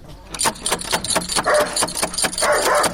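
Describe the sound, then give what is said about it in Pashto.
Dog barking at a house door, a fierce guard dog giving many loud, rapid barks in a steady rhythm. “اوهو دا څه بد سپی لري چې ومونه داړي.”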